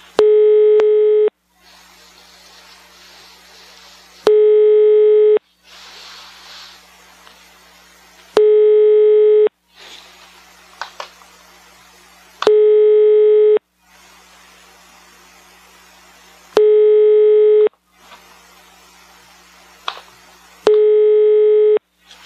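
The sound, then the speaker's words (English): Telephone tones while a call to Sweden connects: six steady buzzing tones, each about a second long, repeat about every four seconds, with faint hiss in the gaps. “You will soon be connected to a random Swede somewhere in Sweden. This call may be recorded.”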